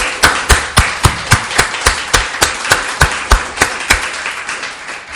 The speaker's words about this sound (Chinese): 俾啲掌声啊！